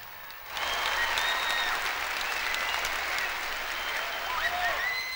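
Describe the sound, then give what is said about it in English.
Audience applause starts after a brief moment of quiet and then holds as dense, steady clapping at an even, moderately loud level to the end. “applause, applause”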